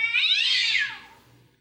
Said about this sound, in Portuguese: Não, briga de gato, hein?